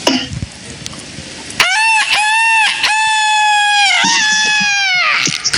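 A rooster crowing once, a loud, long, strongly tonal cock-a-doodle-doo lasting several seconds and dipping in pitch at the end, after a stretch of faint rustling.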